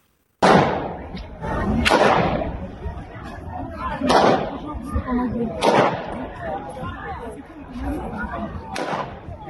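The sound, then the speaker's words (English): Gunmen fire inside a concert hall: several sharp, loud cracks spaced one or two seconds apart, each trailing into a long, booming reverberation over continuous noisy commotion. “Those are gunmen shooting at people who were off camera.”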